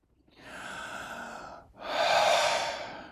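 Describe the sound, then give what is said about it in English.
One big breath from a person showing how most people breathe: a long, airy inhale swells and holds, then a brief dip and a louder, fuller exhale. No talking. “I'm going to take one big breath and watch what happens to my body, because this is how most people breathe.”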